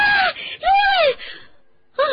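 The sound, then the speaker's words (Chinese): A man screams suddenly in surprise while pouring milk during tea preparation, a few loud, strained voiced cries in quick succession, one drawn out longer, then a brief pause before another short cry. “他突然尖叫了一声”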